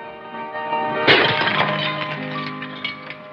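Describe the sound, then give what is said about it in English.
A glass hurled in a bar shatters in one sudden crash, followed by a spray of clinking fragments that fades over a steady tonal background. “Once there, a fit of temper takes her over, and she hurls a glass at Doc before storming off.”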